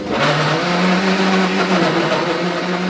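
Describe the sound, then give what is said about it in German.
A blender purees peaches with a steady, loud, whirring motor hum that holds an even pitch with no breaks from start to finish. “jetzt pürieren wir die Pfirsiche. Genau, die werden jetzt wieder püriert.”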